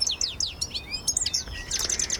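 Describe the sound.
European goldfinch song: quick, high, liquid twitters and chirps in rapid bursts, with many short notes sounding clearly on their own.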